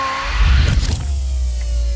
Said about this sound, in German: Achtung, Kommandobrücke fährt ein.